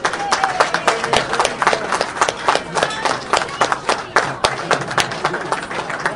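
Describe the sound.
An audience gives a round of applause at a speaking event, many irregular, sharp claps overlapping in a fairly loud, uneven patter that carries on throughout.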